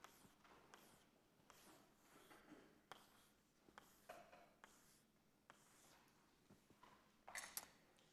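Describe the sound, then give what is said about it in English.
Faint, scratchy strokes of a grid being drawn by hand, a series of short rubbing lines with brief pauses between them and no one speaking. “Let's draw a grid again.”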